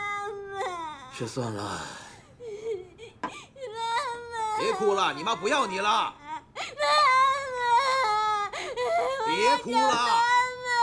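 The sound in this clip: A child cries hard, with loud, high wailing sobs that rise and fall in pitch. The cries come in long, strained bursts separated by brief catches of breath.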